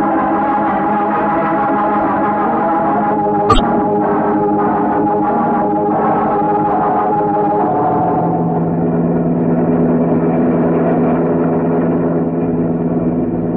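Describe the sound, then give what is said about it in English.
A car engine running while driving, a steady mid-pitched drone and rumble throughout with one brief sharp click partway through. “Can't you drive a little faster, Mario?”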